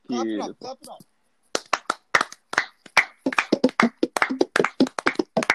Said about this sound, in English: clap it up.